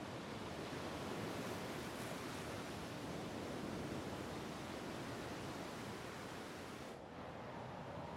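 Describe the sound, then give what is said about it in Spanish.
Heavy sea surf roars in a continuous, broad wash of breaking waves along coastal dunes. It stays loud and steady on its own, with only a brief slight dip near the end. “En el mar hay un gran oleaje.”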